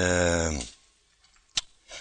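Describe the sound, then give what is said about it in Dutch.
A page of a Bible turned back, heard as a single short, dry papery flick after a voice stops, then a faint rustle at the end. “Maar het is bij mij een bladzijde terugslaan.”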